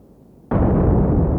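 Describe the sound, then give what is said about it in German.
A surface explosion set off by wire to probe deep soil layers: a sudden loud blast that turns straight into a sustained roaring rumble. “Er untersucht die tiefgelegenen Erdschichten. An der Oberfläche verursacht er eine Explosion und registriert,”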